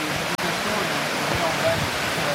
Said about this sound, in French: C'est le long de la rivière, ça suit la rivière.